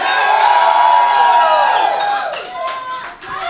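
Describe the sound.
Xbox Live Gold members in an event audience cheer and whoop loudly together, a bright roar of voices that holds steady and then dips and fades near the end.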